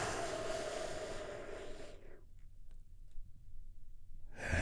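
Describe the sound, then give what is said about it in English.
A deep breath taken in and released, a long, soft, breathy rush of air that slowly fades away to near silence, with no talk over it. “And we do that by taking a big, deep, healing breath together. Here we go.”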